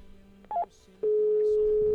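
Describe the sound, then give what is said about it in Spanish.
A telephone number being dialed for a call to Colima: a short keypad beep, then a steady, unbroken telephone tone that holds evenly to the end. “Ahí estamos marcando.”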